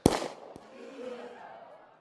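A gunshot from a live-ammunition Colt 45 revolver: one sharp, loud bang right at the start, followed by a fainter knock and a low ringing tail that fades over about two seconds.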